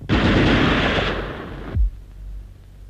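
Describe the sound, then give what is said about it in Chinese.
Gunfire in a night raid on guerrilla fighters: a loud, dense burst of rapid shots that lasts nearly two seconds, then stops abruptly with a deep thump and leaves a low, fading rumble. “等我出来，再不出来我就开枪了。”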